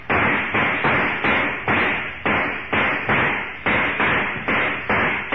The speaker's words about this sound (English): With the steel-jacketed bullets flattened against it like so much putty, the mechanical man plods on unharmed